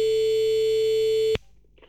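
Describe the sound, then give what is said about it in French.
A telephone ringback tone plays while a call is being placed: one steady, mid-pitched tone holds for about 1.3 seconds, then cuts off abruptly, leaving faint low noise. “J'appelle sans plus attendre”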